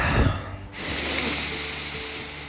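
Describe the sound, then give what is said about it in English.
A deep breath, heard alone, with a low, soft intake followed by a long, airy hiss of breath that stays steady and slowly fades. “Take a nice deep breath with me.”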